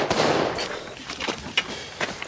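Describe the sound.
Gunshots from a scene in a TV show, heard as a few sharp bangs and cracks over a dense, noisy background with no clear voices.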